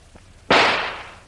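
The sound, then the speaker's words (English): A single gunshot fired to blast an old lock off a metal door: one sharp, loud crack bursts out of near quiet and trails off in a decaying tail. “I'm going to try and shoot the lock off the door. Get back now. The bullet may bounce off the metal.”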